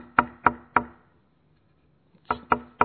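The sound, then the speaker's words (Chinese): Knocking on a door: two groups of three sharp, evenly spaced knocks separated by a pause of about a second, loud and alone with no voices. “敲门声已经听到了”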